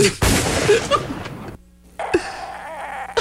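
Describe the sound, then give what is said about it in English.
A gunshot in a cartoon scene: a sharp, loud blast at the start trailing into a noisy, rumbling tail for over a second, then a brief near-silent gap before more sound begins. “Shoot him, mister! Shoot him now!”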